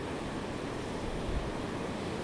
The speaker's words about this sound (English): But I'm loving it by the sea just at the moment. A brisk wind from the north.